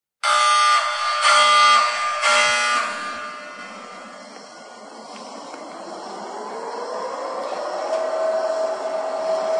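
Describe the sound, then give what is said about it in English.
A loud, buzzing klaxon horn sounds in a few bursts at the start, then gives way to a steady hiss with a slowly rising tone. “Don't you love the klaxon in the beginning of that?”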